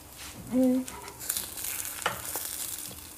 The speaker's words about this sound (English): I actually love the sound of, like, sizzling.